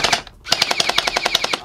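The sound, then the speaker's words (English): Rapid automatic gunfire from a gun: a couple of opening shots, a short gap, then a fast, even burst of many sharp cracks in a steady rhythm, loud and unbroken by talk. “And tell all your friends because we have guns now. It doesn't shoot in the air. Let me show you how to shoot the gun.”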